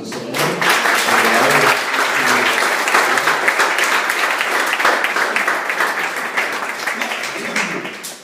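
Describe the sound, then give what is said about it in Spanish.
Congregation applause during a church sermon, a loud, sustained roar of many hands clapping together, with some voices mixed in. It holds steady for several seconds and tapers off at the end. “Y damos la gloria a Dios, le damos un aplauso”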